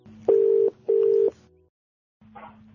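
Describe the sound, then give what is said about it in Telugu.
Ringback tone of an outgoing telephone call to a friend: two steady, equal electronic tone bursts, each about half a second long with a short gap between them, followed by a silent pause and then fainter sound. “ఇప్పుడు మచిలీపట్నంలో ఉంటున్న శ్రీవత్సవ అనే నా friend కి call చేసి తన అభిప్రాయం కూడా తెలుసుకుందాం”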